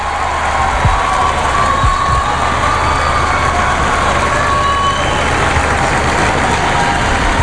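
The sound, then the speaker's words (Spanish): Street crowd noise outside the Nativity facade during the inauguration of the Tower of Jesus Christ forms a dense, constant roar of mingled voices over a low rumble, holding an even, loud level throughout. “Bien, pues está a punto de salir al exterior ahora ya mismo, sale. Esa fachada del nacimiento. Ahí está, el sonido de la calle.”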